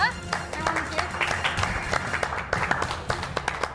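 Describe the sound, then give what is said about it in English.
Audience applause for the new 2019 Mayhem in March champion, dense steady clapping with voices talking over it. “Well, congratulations to Keaton Kringlin. He's our new Mayhem in March champion for 2019. Let's give it up, everybody.”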